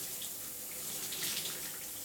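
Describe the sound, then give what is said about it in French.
A shower runs with a steady, unbroken hiss of falling spray. It holds an even level throughout, with no talk. “Passer quelques minutes de plus sous la douche, dans la chaleur.”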